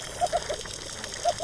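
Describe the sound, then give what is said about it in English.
Crackling of snapping shrimp on a coral reef, heard underwater as a steady, dense hiss of tiny snaps, with a few short tonal pulses from fish rising above it at intervals. “So this is the sound of a coral reef, where you'll hear the snapping shrimp, but then on top of that crackling sound from the snapping shrimp, you've then got fish communicating with each other”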